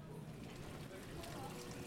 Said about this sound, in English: This is the sound of a lobster tank the size of a small bathtub.